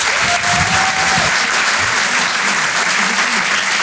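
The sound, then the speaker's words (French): Steady, loud applause from a comedy stage-show audience greeting a comedian, with dense clapping that holds evenly from start to finish. “Faites du bruit pour Adèle Fugazi.”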